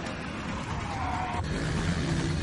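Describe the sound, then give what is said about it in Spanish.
A BMW and a motorbike rev hard as they chase a Volvo up a ramp. Their engines make a continuous roar with a higher whine partway through, then a lower droning tone. “Toro gira bruscamente. Suben por una rampa. El BMW y la moto lo siguen de cerca.”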